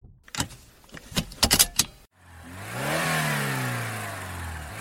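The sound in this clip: A vehicle engine revs as it drives off into dangerous territory, its pitch rising and then easing back in a sustained roar. A few sharp metallic clicks and jangles come just before the engine starts.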